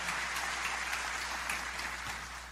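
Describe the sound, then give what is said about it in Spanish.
Congregation applauding at a Spanish-language Christmas church service, a steady wash of many hands clapping, fairly faint and easing off slightly near the end. “Vamos a dar un aplauso al Señor.”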